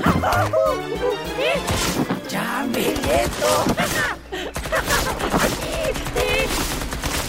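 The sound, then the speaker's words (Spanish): Gunfire in a dramatic sound effect: rapid, dense bursts of shots crackling throughout, mixed with loud shouting voices. “Mientras Ricardo disparaba a todos lados sin siquiera poder apuntarle.”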